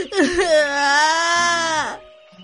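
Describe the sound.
A child's voice cries out in a children's story, a lost child wailing for mum and dad. It is one sustained, tonal wail lasting about two seconds: it wavers at the onset, holds steady, then cuts off abruptly.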